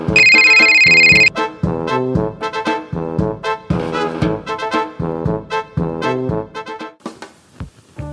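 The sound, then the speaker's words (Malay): A telephone rings while an outgoing call is placed: a steady electronic tone at first, then a repeating bright melodic ringtone pattern. “Jom kita call Aaron sekarang”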